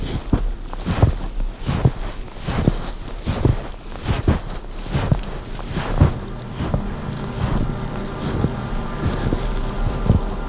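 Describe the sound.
Footsteps walking outdoors, many steps in a steady rhythm, each a soft crunching thud, with wind noise blowing across the microphone throughout.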